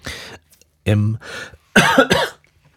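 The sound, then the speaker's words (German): A person coughs in a few short, throaty bursts with brief gaps between them. The coughs are loud and heard alone. “genau wie für dieses Husten. Sorry dafür, weil ich bin halt ein Mensch”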